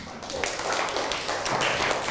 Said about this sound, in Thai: ดีมากครับปรบมือครับ